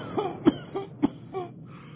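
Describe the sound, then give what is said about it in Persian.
Coughing from someone who has breathed in dust: a few short, harsh bursts with throaty, voiced sounds between them. “رو زمین توف میکنم. سرفم میگیره.”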